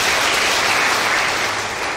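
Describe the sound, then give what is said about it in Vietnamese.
Applause from young people at a Buddhist temple during a dharma talk, a dense, continuous wash of clapping. It holds a steady loudness, and no single clap stands out. “Quá giỏi, cho một tràng pháo tay.”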